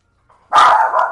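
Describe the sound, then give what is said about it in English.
A dog barks, one loud, harsh, drawn-out bark heard alone, with a faint brief whine just before it. “That's my dog, everyone.”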